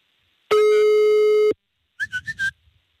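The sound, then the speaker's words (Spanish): Telephone line tones sound while a call is dialed. A steady, clean tone holds for about a second, then after a short pause four quick beeps follow in a row, with no voices. “Ya estamos marcando, banda”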